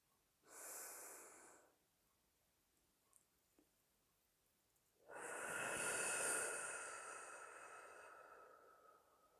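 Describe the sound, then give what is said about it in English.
A deep breath is taken during a guided breathing exercise that begins after a chime. A short airy inhalation is followed, after a quiet pause, by a long, slow, breathy exhalation that gradually fades. “We will take our first breath now.”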